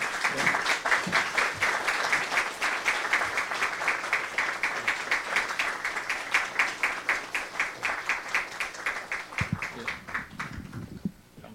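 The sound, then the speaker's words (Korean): Audience applause welcomes two lecturers to a special lecture: many hands clap steadily and loudly, then the clapping thins and fades away near the end. “특강이니까 박수를 쳐도 될 것 같습니다. 네, 오시면 박수로 맞이하겠습니다.”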